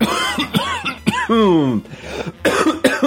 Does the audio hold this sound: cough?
yes

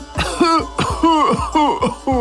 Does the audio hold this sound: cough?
yes

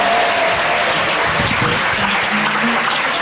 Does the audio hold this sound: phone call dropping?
no

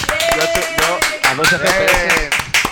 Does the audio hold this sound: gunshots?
no

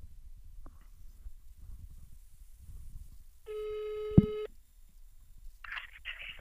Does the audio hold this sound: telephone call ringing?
yes

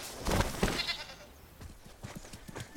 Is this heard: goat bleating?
yes

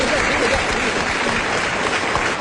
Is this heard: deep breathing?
no

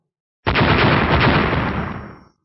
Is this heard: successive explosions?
yes

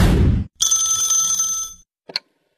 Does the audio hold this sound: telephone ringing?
yes

